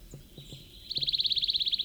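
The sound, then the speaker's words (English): A plain titmouse calls at a road fork by Big Creek, delivering a rapid trill of many high, evenly spaced notes that starts partway through and runs to the end, bright and clear above a quiet background. “Plain titmouse at the road fork, Big Creek.”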